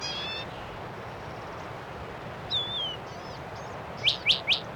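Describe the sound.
Goldfinches sing in high, thin calls over a steady background hiss: first a short warbling note, then three quick, bright chirps in a row close together near the end.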